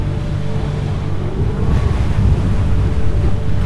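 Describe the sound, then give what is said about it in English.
Wailing wind makes a steady, droning rush with a low rumbling roar beneath a faint whistling tone, swelling slightly partway through and continuing without a break. “There was nothing left but the doleful wail of the wind.”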